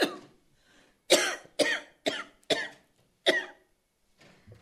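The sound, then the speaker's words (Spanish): A woman coughing from fever, six short, harsh coughs in an uneven series with brief silences between, alone without talk. “como no me salían las palabras de la calentura que tenía, empiezo a toser.”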